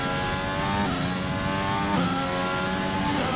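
Car engine driven at speed on fast laps gives a loud, continuous mid-pitched roar with a buzzing harmonic drone, and its pitch wavers slightly as the revs shift.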